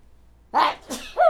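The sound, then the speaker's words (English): A person sneezes: a loud, breathy burst broken into a few quick pulses, heard alone with no talk around it. “Wait, I have to sneeze.”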